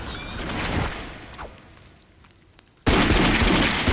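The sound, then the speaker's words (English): Gunfire from a handgun in a video game, aimed at a leaping facehugger: a single sharp crack, then an abrupt, loud, sustained burst of noise that runs to the end. “He manages to pull it free, and as the facehugger jumps towards him, he shoots it down.”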